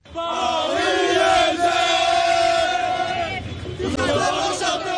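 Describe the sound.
A crowd of fans celebrates on the streets of Paris after PSG beat Arsenal in the Champions League final. Massed voices roar and chant loudly and without a break.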